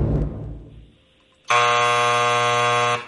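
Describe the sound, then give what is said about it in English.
A quiz buzzer marks a wrong answer in a radio jackpot contest. After a brief lull, a loud, harsh, steady electronic tone sounds for about a second and a half before cutting off. “I hate hearing the buzzer.”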